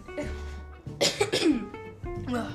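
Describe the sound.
Coughing and throat clearing from someone with a pickle flake stuck at the back of the throat: a few harsh, sharp coughs cluster in the middle, framed by lower voiced grunting sounds.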